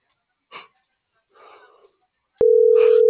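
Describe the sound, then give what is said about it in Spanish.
A telephone line tone sounds while a call is being dialed. Two faint breathy sounds come first, then a loud, steady, single-pitched tone starts abruptly and continues to the end. “Ya le estoy marcando.”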